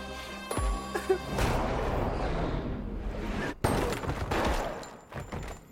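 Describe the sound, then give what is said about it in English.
Gunfire from a movie trailer, with shots fired at a man. A few sharp bangs cut through a dense, rumbling barrage of rapid shots that keeps up at a moderate level throughout, with no clear speech over it. “I'm just gonna shoot him in the leg.”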